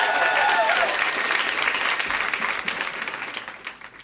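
Audience applause welcomes a performer to the stage at a readings event in Toronto. Loud, dense clapping starts strong and gradually thins and fades over about four seconds.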